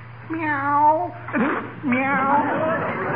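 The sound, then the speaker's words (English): A voice imitates a cat meowing, giving two loud, drawn-out, wavering meows with a brief sharp cry between them and no other talk. “Must be that darn cat that keeps coming in here.”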